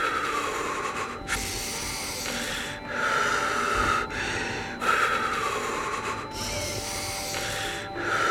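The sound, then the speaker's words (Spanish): Heavy, panicked breathing of someone in a panic attack brought on by altitude sickness, with rasping inhales and exhales alternating in a rapid, steady rhythm for several breaths and no voices. “Estás teniendo un ataque de pánico. Inhala. Eso es. Ok, inhala. Eso es, sigue así. Exhala.”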